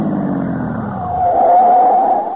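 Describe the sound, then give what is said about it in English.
Car tires skid on a sharp turn: a low engine rumble fades as a high, wavering tire screech rises and holds for about a second before trailing off. “Uh-oh. Did you hear those tires skidding, Sully? I shouldn't have turned so sharply.”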